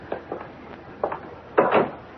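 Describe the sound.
A door being opened, heard as a few soft wooden knocks and clicks and then a louder, longer clunk near the end, with no talk.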